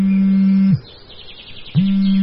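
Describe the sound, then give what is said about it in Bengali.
A mobile phone rings in a pocket: a loud low buzzing tone stops for about a second and then starts again, with a warbling high chirpy melody running over it. “এমন সময় ওর পকেটের mobile ফোনটা বেজে ওঠে।”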